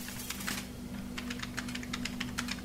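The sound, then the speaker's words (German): Fast typing on a computer keyboard, a dense, even patter of many sharp clicks over a low, steady hum. “schnappte sich JD die Tastatur und ließ die Finger fliegen.”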